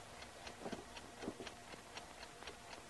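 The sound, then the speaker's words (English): An alarm clock ticking, with faint, quick, evenly spaced ticks over a low background hiss. “picks up the alarm clock and turns a knob on the back”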